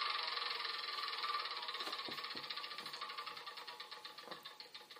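A board game spinner wheel ticks rapidly in a steady run of clicks that gradually spread apart as it slows toward a stop.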